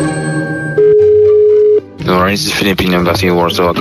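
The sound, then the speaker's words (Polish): A telephone tone while calling the Philippine embassy: a single steady, mid-pitched beep lasting about a second, cutting in over fading music, followed by talk. “A jakby tak teraz zadzwonić do ambasady Filipin?”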